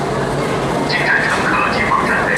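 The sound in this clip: A tram running on the Xijiao light rail sightseeing line in Beijing, a steady rolling rumble with a faint electric motor whine hovering above it throughout.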